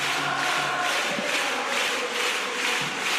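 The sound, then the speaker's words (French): A basketball crowd at Bourg-en-Bresse's arena sings after a European-championship season, a dense, continuous roar of many voices with sustained, blended sung tones running steadily underneath, loud and unbroken throughout. “Écoutez, le public d'Equinox qui chante. Ah, ils ont vécu une merveilleuse saison.”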